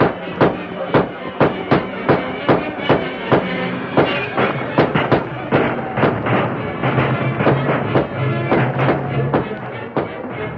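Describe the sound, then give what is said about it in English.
Rifle gunfire in a dramatised attack on a wagon train: many sharp, loud bangs repeating in a fairly steady, rapid rhythm over a dense, continuous background. “After the first sudden burst of firing, however, the attackers retreated behind the many boulders that lined the trail.”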